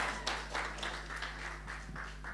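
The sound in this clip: A church audience puts its hands together in welcome. The claps are quiet and steady over a low continuous hum.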